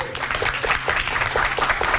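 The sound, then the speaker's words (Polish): Studio audience applause rewards a correct answer on a radio quiz, a continuous, even patter of many hands clapping loudly for the full two seconds. “No wielkie brawa.”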